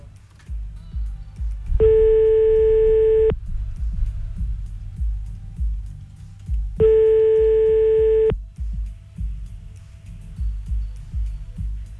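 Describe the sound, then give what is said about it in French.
Telephone ringback tone before a call is answered: two long, steady mid-pitched electronic tones, each about a second and a half, separated by a pause of several seconds, over a constant low rumbling background. “On fait le premier appel maintenant.”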